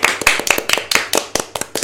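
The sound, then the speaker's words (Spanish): Hands clapping in applause: many sharp, crisp claps in a quick, fairly steady rhythm, loud and heard on their own with no talking. “Te aplaudo desde acá.”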